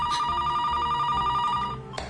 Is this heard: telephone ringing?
yes